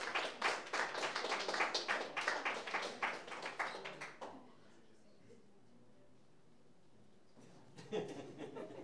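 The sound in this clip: Audience applause welcoming musicians, among them a pianist, as they are introduced: dense, lively clapping for about four seconds that stops abruptly, leaving near quiet until a brief louder burst near the end.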